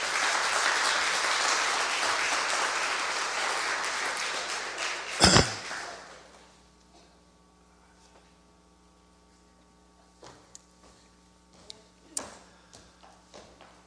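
An audience applauds to welcome guests on stage: dense clapping for about five seconds, then a loud thud as it dies away into a low electrical hum with a few faint taps.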